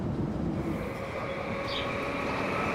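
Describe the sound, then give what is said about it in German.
Steady rumble of a regional express train running along the Rhine between Bingen and Koblenz: a continuous low roar with faint wheel hiss, unbroken throughout and with no voices. “Wieder auf der linken Rheinseite steigen wir in Bingen in den Zug nach Koblenz. Der Regionalexpress hält im Gegensatz zum ICE öfter.”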